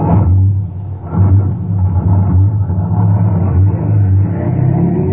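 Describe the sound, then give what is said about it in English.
A heavy vehicle's engine rumbles as it is shoved into gear and drives off, a low, steady drone with mild surges in loudness and no voices. “I shoved the Brute to the gear, and we were on our way.”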